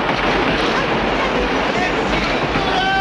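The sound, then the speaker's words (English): A train pulls into a station with a loud, steady rumbling roar and dense clatter that hold unbroken for the few seconds heard. “As the train pulls into the station, Yuri runs alongside, chasing after Tonya.”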